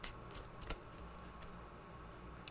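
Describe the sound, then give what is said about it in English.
Tarot cards are shuffled and one is drawn, heard as faint, soft papery rustles and a few light flicks and taps spread through a quiet, hissy background. “Okay, now we're going to pull a tarot card for the week. See what you need to know for the upcoming week.”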